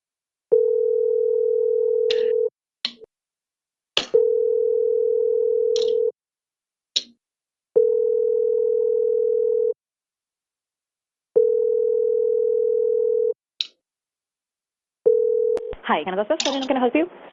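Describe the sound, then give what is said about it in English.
A telephone rings in a video game with four long, steady, even-pitched tones separated by pauses and sprinkled with brief clicks. A fifth tone is cut short as a voice begins. “Let's get this phone ringing now.”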